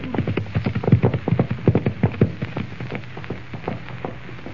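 Horses' hooves clip-clop as riders set off: many quick, uneven thuds in a loose galloping rhythm, loudest early on, then settling into fainter, sparser beats.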